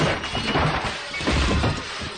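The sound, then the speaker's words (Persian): The glass of a jewellery shop door is smashed, with a dense, noisy crash and shattering that holds a fairly steady loudness for about two seconds. “داوود میزنه شیشه در جواهر فروشی رو میشکنه.”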